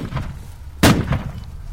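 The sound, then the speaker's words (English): A single gunshot rings out as someone takes pot shots at coalition troops near stuck armored trucks in muddy ground. It is one sharp, loud crack with a low thud, standing out from quiet background noise. “Someone takes a few pot shots at the troops. They scatter for cover and return fire.”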